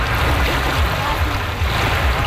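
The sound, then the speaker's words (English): Paddlers setting off in small boats on the Don River during a community paddling event: a dense, continuous rush of splashing water and low rumbling noise, steady and fairly loud throughout. “That's the sound of paddlers embarking on the last Paddle the Don event back in 2019.”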